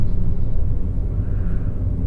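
Low car engine rumble while driving, a steady deep drone with no distinct events and no voices.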